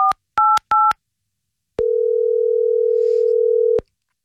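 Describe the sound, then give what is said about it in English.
Telephone keypad tones sound as a number is dialed: three short, clipped two-note beeps in quick succession, a brief pause, then one long, steady mid-pitched tone that holds for about two seconds before cutting off. “I don't know the last time I dialed a number like this.”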